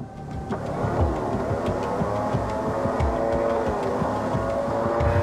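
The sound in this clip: A boat engine runs while towing by rope, droning steadily with a low, throbbing motor tone and occasional dull knocks. The level stays fairly even, and no one talks.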